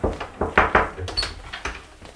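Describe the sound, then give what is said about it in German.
A door opening into a school headmaster's office: a run of dull knocks, thuds and rattles in an uneven rhythm, fairly loud and with no talk over it. “Gehen wir mal rein zum Direx. Fräulein Meerwort ist nicht da. Dann durch die Tür zum Direx.”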